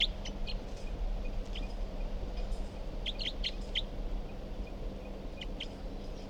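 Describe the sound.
Recorded bird call: faint, short, high chirps come in scattered clusters over a steady low hum, with quiet gaps between the bursts.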